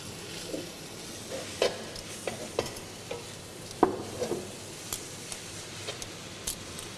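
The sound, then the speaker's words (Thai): Bean sprouts and garlic chives stir-fry for pad thai, a continuous sizzle punctuated by many irregular scrapes and clicks of a spatula against the pan, with no talk. “ถั่วงอกตัวนี้ให้มันสลดนิดนึงนะครับและตบท้ายด้วยกุช่ายนะครับ”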